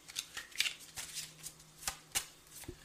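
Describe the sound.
Playing cards are drawn from a deck, making faint, irregular papery slides and a few crisp flicks spaced apart.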